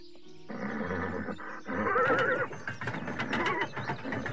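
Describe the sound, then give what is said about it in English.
A castle drawbridge lowering: repeated mechanical ratcheting and clanking like turning gears, with a horse whinnying partway through, busy and fairly loud throughout. “Look, the drawbridge lowers.”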